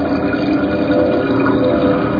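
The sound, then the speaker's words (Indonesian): Water rushing steadily from a tap while a face is washed, a loud, continuous, even hiss with no voices. “suara keran air. Mungkin temanku sedang cuci muka.”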